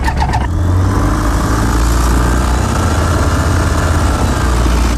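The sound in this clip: A light aircraft engine starting before a flight: a short cranking burst, then the engine catches and settles into a loud, steady, rumbling drone that holds evenly to the end, with no talk.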